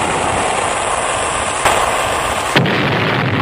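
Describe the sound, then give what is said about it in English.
Torpedo launch and explosion sound effect, aimed at a ship's belly: a loud, sustained roaring rush broken by two sharp bursts, the second one leaving the deep rumble thinner afterward. “I've been at the target range, and I've been putting that torpedo into the Beagle's belly.”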